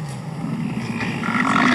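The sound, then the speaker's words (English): A bison bellowing in rut gives a low, rough, droning roar that holds steady for under two seconds over a hiss of background noise. “That's elk. Yeah. Oh, girl, you're wrong. I am. That's bison.”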